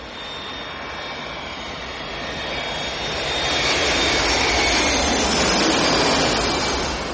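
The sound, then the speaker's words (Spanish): An airplane approaches a landing runway with a broad, steady jet engine roar that swells gradually louder and stays loud without other sounds. “Observa los potentes focos de la pista de aterrizaje hacia la que se dirige un avión.”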